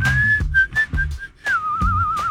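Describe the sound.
A person whistles a few short, clear notes separated by brief breaks, then holds a longer, wavering warbled note, with soft low thumps between phrases.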